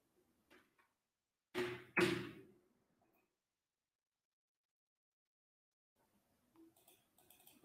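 Two quick, sharp clicks of a computer mouse pressing a buy button. They are faint and close together, followed by quiet and a few soft rustles.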